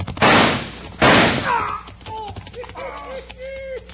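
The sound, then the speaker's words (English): Two gunshots in a Western gunfight, with a gun shot out of a man's hand. Two loud, sharp blasts about a second apart each trail off slowly, followed by softer, fainter tones. “gun gets real hot when it's shot out of your hand, don't it”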